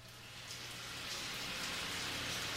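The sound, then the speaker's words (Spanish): Rain falls in a steady, dense hiss of countless drops that swells slightly in the first second and then holds even and unbroken throughout. “Llueve.”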